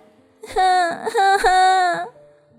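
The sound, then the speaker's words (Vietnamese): An infant wails in two sustained, high-pitched crying bursts joined by a short catch of breath. The cry is loud and tonal and trails off into quiet. “Đứa bé thấy mẹ khóc thì liền khóc theo.”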